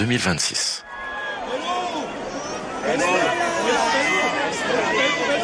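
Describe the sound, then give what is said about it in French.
Crowd of pilgrims in St Peter's Square in Rome acclaiming the pope: a dense mix of many voices calling and cheering, with a brief loud burst at the start and the cheering swelling louder in the second half. “Chers amis de KTO, bienvenue sur la place Saint-Pierre de Rome. Avec le pape qui est acclamé par la foule des pèlerins”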